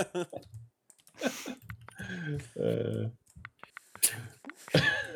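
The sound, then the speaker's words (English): Dice clatter on a table during a tabletop game session: brief sharp clicks scattered among people talking. “Oh, did I just rolled too many dice. I'm sorry.”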